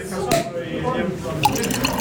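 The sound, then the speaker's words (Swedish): Sparkling wine uncorked and poured at a celebration for archive volunteers: a short sharp pop near the start, then a steady fizzing pour, with voices talking underneath. “korkade upp bubblet”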